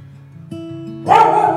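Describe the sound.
A family's schnauzer barks once, a short, sharp, loud bark near the end that rises over a low, steady background hum.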